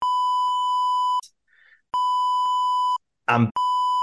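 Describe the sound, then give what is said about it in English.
Censor bleeps cover speech as three loud, steady electronic tones of flat pitch. Short gaps separate them, and a brief noisy burst comes just before the last tone. “And then I'm going to beep this out for fun.”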